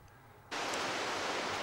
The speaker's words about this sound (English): Meanwhile, back at the rapids, Jim and Laura sink to their knees on the banks of the raging torrent.